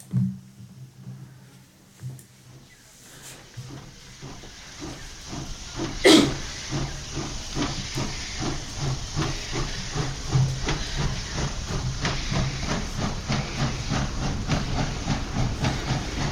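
A steam train starts off: loud hiss under a steady, rhythmic run of chuffs that slowly builds in loudness, with a brief whistle-like tone early on.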